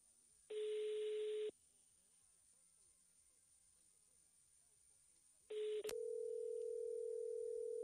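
A telephone call to a contest winner rings unanswered, with a steady ringback tone. A tone of about a second is followed by a long silence, then the tone returns with a click and holds steadily to the end.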